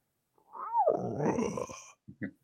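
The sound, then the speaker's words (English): A growl-like rumble caught on a paranormal team's recording and explained as a stomach noise: one gurgling, low growl of about a second and a half, opening with a short bending tone, then two brief quiet bursts. “Oh, that's a stomach noise. That's all that is. I've got a stomach. I've heard that 1,000 times.”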